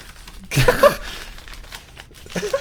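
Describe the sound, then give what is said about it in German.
Gift wrapping paper is torn open with one loud ripping, crinkling burst, followed by quieter rustling and crumpling and another crinkle near the end. “Aber schönes Geschenkpapier. Mach doch mal auf, mein Lieber.”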